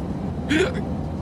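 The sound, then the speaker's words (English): A single short hiccup, an involuntary spasm of the diaphragm, gives a quick sharp catch with a brief upward-sliding vocal tone, heard alone over a steady low background hum. “That was a hiccup. According to some, but in reality, what I just did there was an involuntary spasm of my diaphragm.”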